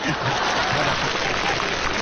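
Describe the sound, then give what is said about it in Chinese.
Audience applause at a Chinese crosstalk comedy show: a dense, steady patter of many hands clapping at an even loudness throughout. “头一句唱完了，朋友们就得掌声通过。”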